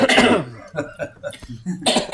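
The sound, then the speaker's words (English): Coughing from someone who has just eaten a chili that went down the wrong way: a loud harsh burst opens, followed by a few smaller coughs and throat noises, then another strong cough at the end. “It's the chili gone down the wrong way.”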